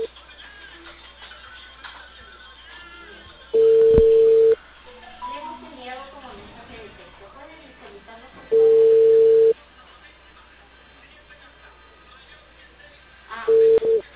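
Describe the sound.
A telephone tone after a call is hung up: a steady, level beep sounds in bursts of about a second at regular intervals, with a voice talking quietly in the gaps between them.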